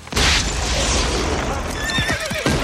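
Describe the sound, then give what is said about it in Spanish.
A rocket accidentally fires from a cart during an army's march, giving a loud, sustained hissing burst, and a horse's whinny follows near the end. “accidentalmente se disparó uno de los cohetes que llevaban en el carro custodiado por Mulan”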